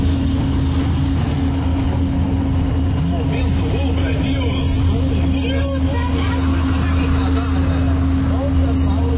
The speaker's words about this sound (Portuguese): Ele dirigindo na estrada e a buraqueira aparecendo aí, isso que ele mandou, só pra ilustrar aqui.